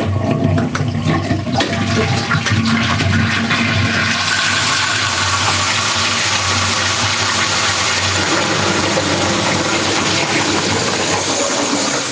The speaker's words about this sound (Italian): Se non è chiaro te lo posso pure ripetere, eh. è lo scarico del gabinetto